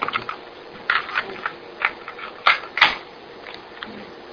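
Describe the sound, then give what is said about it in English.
Plastic clicks and clacks of a cassette tape being flipped in its player, an irregular run of several sharp mechanical taps, with two louder snaps near the middle. “let me flip your tape, or just flip it.”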